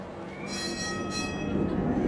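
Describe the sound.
A tram rolls along its rails with a steady, loud low rumble. A high, thin wheel squeal rises over it for part of the ride.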